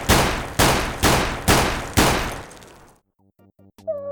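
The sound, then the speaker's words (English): Five loud gunshots from a loaded gun crack in quick, even succession, each followed by a decaying ring. Then comes a short hush and a few faint tonal notes. “I'm serious this time. I'm loading the gun.”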